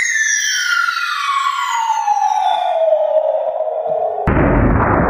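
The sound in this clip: Cartoon-style bomb sound effect: a long whistling tone slides steadily downward in pitch for about four seconds, then cuts into a loud, rough explosion burst that fills the final second.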